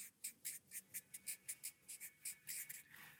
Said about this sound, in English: So I'll just write these down here.